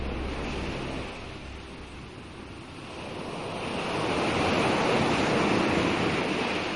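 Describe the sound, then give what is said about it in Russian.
Waves of a stormy sea roar steadily with wind, a dense, unbroken wash of surf that dips slightly and then swells louder through the second half. “Девять дней и девять ночей носили волны Одиссея на его жалком плоту по бушующему морю.”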